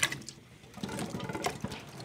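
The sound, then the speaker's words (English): Water starting to boil in a pot in a kitchen where salted cod and root vegetables are being cooked: faint, irregular bubbling and hissing with small scattered pops throughout. “So that water starts boiling.”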